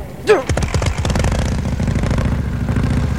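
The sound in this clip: A petrol engine with its fuel tap open is started: a brief whine, then the engine catches with a rapid putter that climbs in pitch as it revs before settling into a loud, steady run.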